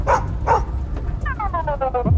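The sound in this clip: A dog barks as a car drives past it into a yard: two sharp barks, then a quick run of higher yelping yips over a steady low rumble.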